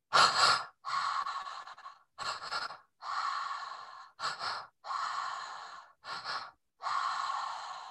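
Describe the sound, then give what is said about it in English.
Loud mouth breathing in a set pattern of two breaths in and one out through the mouth, heard alone as about four rounds that each pair a short, sharp, gasp-like breath with a longer airy one. “I'm going to show you what this pattern looks like.”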